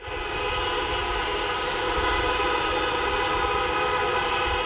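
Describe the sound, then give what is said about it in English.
Sirens and car horns sound together on a Beijing city street at the start of a mourning silence for earthquake victims, forming a loud, dense, unbroken wall of sustained tones. “It's the sound of sirens and car horns, which is the way that people marked the beginning of an official 3 minutes of silence to remember the victims.”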